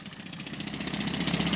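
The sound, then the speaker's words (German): Pneumatic drills digging a trench across Ebertstraße at the Brandenburg Gate at night: a continuous, fast mechanical rattle with a steady pulse, fairly faint and unchanging throughout. “Seit etwa 1 Uhr heute Nacht rattern die Pressluftbohrer und bohren einen Graben quer durch die Ebertstraße hier am Brandenburger Tor.”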